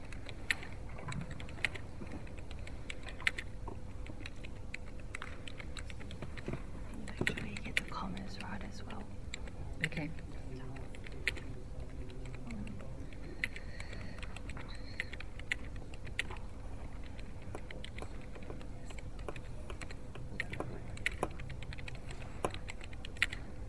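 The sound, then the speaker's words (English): Many faint, irregular clicks of typing on a computer keyboard as a motion is typed up during a formal meeting, with low murmured voices underneath throughout. “we'll just give the Minister Secretary a few minutes to type them up”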